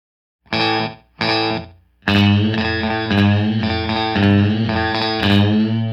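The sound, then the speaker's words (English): An electric guitar plays through a DD3 delay pedal set for a slapback echo, with the distortion pedal switched off. Two short chord stabs open, then a run of loud, ringing sustained chords follows without pause. “A slapback echo is where you play something, and let's say there's a concrete wall 20 feet away, then you're going to hear your sound, and then right away you hear a slapback off the wall. Here's what it sounds like with the DD3.”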